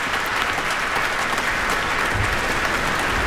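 Concert audience applause after a solo violin sonata by Eugène Ysaÿe played as an encore, thick and continuous clapping at a constant, fairly loud level with no pauses.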